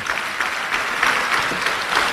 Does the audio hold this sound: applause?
yes